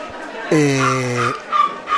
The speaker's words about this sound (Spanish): Tenemos ahí un perrito que se está quejando, no sé por qué.